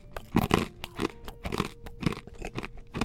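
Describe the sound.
Crisp bites into a crunchy gluten-free cracker made of pure rice with pasture-raised eggs, raw cane sugar, almonds and pumpkin seeds and no leavening, giving many sharp, irregular crunches and chews with no one talking.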